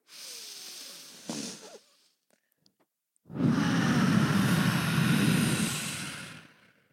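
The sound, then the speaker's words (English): A group taking a deep breath together: a soft breathy inhale, a short silence, then a long, loud rushing exhale that fades at the end. “Let's do a deep breath all together.”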